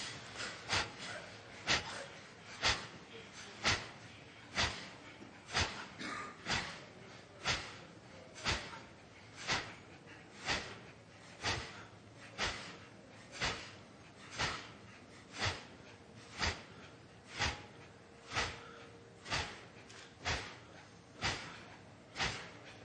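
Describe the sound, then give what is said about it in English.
Sharp, forceful exhalations in a breathing exercise focused on the belly, repeated many times in a steady, even rhythm, each a short breathy burst. “You can do 15 to 20 sharp exhalations. Concentrate on shaking up your belly button area. Okay, here we go. Concentrate on the exhale, okay?”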